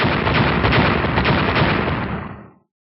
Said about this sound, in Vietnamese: Năm tiếng nổ truyền đến, giống như là năm tòa tu di sơn đập xuống, mặt đất ầm ầm điên cuồng lún xuống.